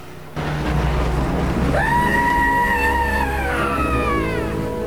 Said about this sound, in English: starts the Jeep up and drives off